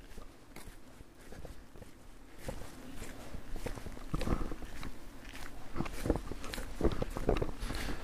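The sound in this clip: Footsteps walk around a forest at night, a steady run of soft crunching steps on the ground that carries on through the whole stretch, with no talk.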